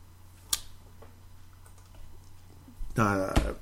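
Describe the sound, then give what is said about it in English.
Clicking on a computer: one sharp click, then a few faint scattered clicks, before a voice speaks briefly near the end. “I'm clicking the wrong stuff here, and I apologize.”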